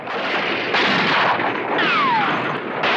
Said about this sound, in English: The dynamite blows up everything it hits, the French, the buildings, and even the trees.